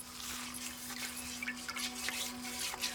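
Clothes are washed by hand in water, with soft, steady drips and trickles over a constant low hum. The level stays fairly even and quiet throughout.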